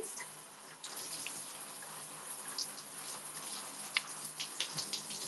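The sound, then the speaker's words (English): Shower water runs while someone washes their legs with body wash, a faint, steady hiss of spray broken by a few soft splashes and drips. “Yeah, I really like this body wash because I feel like it's super nourishing. I don't know. I'm washing my legs right now.”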